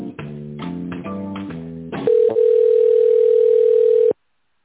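During a call transfer, a short run of stepped electronic tones gives way to a steady, loud telephone line tone. The tone holds for about two seconds and then stops abruptly, followed by silence.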